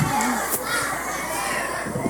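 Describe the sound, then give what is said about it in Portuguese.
A crowd of children cheers and shouts at Arena Samol during a community event, with pompoms in hand, making a steady, dense roar of high voices throughout. “A Arena Samol tá animada, hein? Vieram todos preparados, pompom e tudo.”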